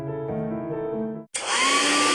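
A hair dryer blows on hair, switching on abruptly after a brief gap into a steady, loud airy rush with a thin high whine running through it.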